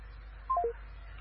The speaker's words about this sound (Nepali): उहाँको फोन काटिएको छ।